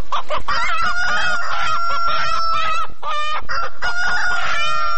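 Chickens clucking and a rooster crowing, from poultry given to families as agricultural aid. Loud, continuous overlapping clucks run throughout, with several long, drawn-out crows and no voices.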